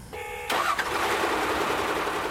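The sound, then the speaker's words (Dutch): A shovel loader's engine starts at a burial pit: a short whirring crank of the starter, then the engine catches abruptly and settles into a loud, steady running drone. “En daar start de shovel.”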